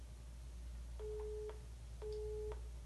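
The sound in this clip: A telephone busy signal sounds as two short, evenly spaced, steady electronic beeps, each about half a second long, fairly faint against a low background hiss.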